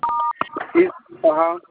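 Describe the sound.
A telephone keypad tone sounds as a secret code is dialed: one steady, bright two-pitch beep, then a voice speaking.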